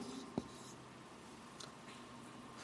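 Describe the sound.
Faint pen strokes as a letter C is written on paper: a sharp tap followed by a few soft, scratchy marks over a quiet background.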